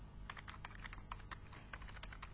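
Typing on a computer keyboard, many quick faint key clicks in an uneven rapid rhythm, heard alone.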